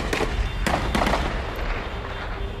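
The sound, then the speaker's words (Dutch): Celebratory gunfire from rebels' rifles fired straight up into the air: a handful of sharp cracks in quick, irregular succession over a constant noisy rumble, which continues after the shots stop. “Maar de schoten die nu klinken zijn uit geweren van de rebellen. En de loop is recht omhoog gericht. Vreugdevuur.”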